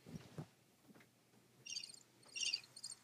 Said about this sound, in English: That's a cricket.